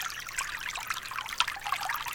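Water trickles softly and continuously, a fine hiss broken by faint scattered droplet sounds, with no voices present.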